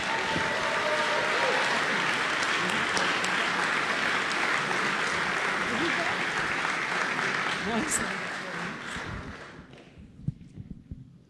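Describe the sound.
An audience applauds to welcome the speakers at a book event. The clapping is loud and sustained, then thins out and fades toward the end.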